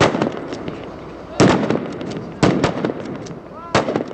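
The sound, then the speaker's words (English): Italian airborne soldier's rifle firing blanks at a mock checkpoint during training with Afghan army students: a few sharp, loud cracks spaced more than a second apart, each with a brief rumbling tail. “Not far away, an Italian airborne soldier aims his rifle and fires blanks at a mock checkpoint manned by more Afghan army students.”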